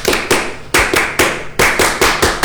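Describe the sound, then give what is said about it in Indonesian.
Indonesian scout rhythmic clap (tepuk pramuka) by SMK 2 Batam scout students, loud sharp claps in unison in a syncopated pattern of short clusters separated by brief pauses. “Kasih dong satu kali lagi tepuk pramukanya. Tepuk pramuka.”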